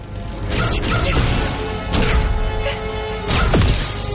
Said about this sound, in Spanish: Ella dispara y él detiene los rayos con su espada.